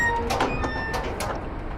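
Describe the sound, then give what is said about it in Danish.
A heavy metal door opening on a capsule in a Mars base, a continuous loud rumbling and grinding with thin metallic whines over a steady low drone. “Du åbner en tung dør til en af metalkapslerne forrest i basen.”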